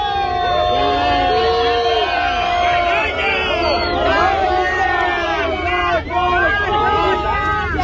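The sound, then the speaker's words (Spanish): A crowd in Plaza Catalunya, Barcelona, boos and jeers the Junts independence party. The loud, dense din of shouting, overlapping voices rises and falls in wavering cries throughout. “Abucheos al partido independentista en el corazón de Barcelona, mensajes de vergüenza”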